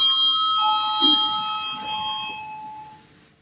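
An electric bell rings to call a parliamentary vote, a steady shrill tone that holds for a few seconds and then fades out, with no speech over it.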